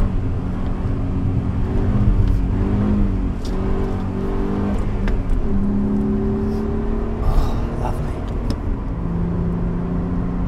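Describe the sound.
A car engine climbing a hill revs through downshifts from fourth to third to second, its steady droning note rising and then stepping down in pitch at each shift, loud and continuous.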